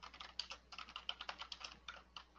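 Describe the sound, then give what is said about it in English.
Rapid typing on a work computer keyboard: many quick, light key clicks in an uneven rhythm, faint and steady, with no voices. “What are you typing”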